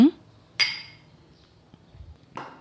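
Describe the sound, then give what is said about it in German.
Glasses clinking in a toast with a vodka drink on a summer day: a couple of bright, ringing clinks spaced well apart, each fading quickly, with faint clatter between. “Es eine angenehme Mische für dich ist und würde sagen, wir prusten uns damit einfach mal an diesem sommerlichen Tag zu.”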